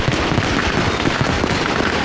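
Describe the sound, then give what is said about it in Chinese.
Fireworks and firecrackers bursting in Shanghai make a loud, dense, continuous crackle with no gaps, steady from start to end and without voices. “你看那个烟花，像上一朵散开的花朵，是不是很好看？”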